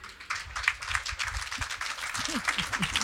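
Audience applause for a performance at the Jazz à Vienne festival on place Cybèle: steady, dense clapping that continues throughout.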